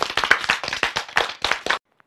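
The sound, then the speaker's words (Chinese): Schoolchildren in a class clap for aircraft engineers, a brisk burst of sharp, slightly uneven handclaps that stops abruptly after nearly two seconds, leaving near silence. “是不是要为我们的工程师鼓掌啊？”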